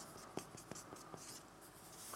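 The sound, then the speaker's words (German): Pen writing a single word by hand above a drawn house: a few short scratchy strokes and taps, faint and alone. “Ich schreibe jetzt hier einfach mal Leben drüber.”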